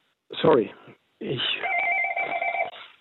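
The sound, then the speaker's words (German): Telephone ringing beneath a talking voice, with a steady two-toned ring lasting about a second that overlaps the speech. “Sonst gehen Sie ruhig an das andere Telefon”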